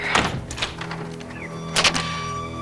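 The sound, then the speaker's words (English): An apartment door being opened in a residential building, with two dull knocking thunks over a steady low background hum. “Val steps off the elevator in Rosie's building. Rosie answers the door.”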